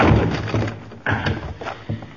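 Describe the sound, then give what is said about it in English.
Heavy thuds of a shoulder forced against a door to break it open, a few dull blows rising above a constant rumbling background. “Now put your shoulder to this door. Now.”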